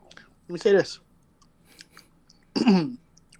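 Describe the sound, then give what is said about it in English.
Nachos are chewed with a faint, crunchy munching between two short, loud vocal bursts. “Excuse me. These are some horrible nachos, but they still good.”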